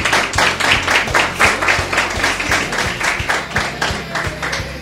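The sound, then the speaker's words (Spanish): Audience applause at a live acoustic concert: many hands clapping in a steady, regular rhythm with a low humming tone underneath, loud and sustained throughout. “Elemental Data, para la cual pido un muy fuerte aplauso. Fuerte aplauso para los chicos de Elemental Data.”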